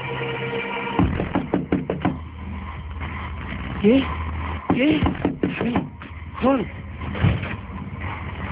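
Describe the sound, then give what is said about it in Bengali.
Several quick knocks on a door come close together early on, over a steady low rumble. Later come more thumps and drawn-out, wavering tones. “তারপর দরজায় টোকা।”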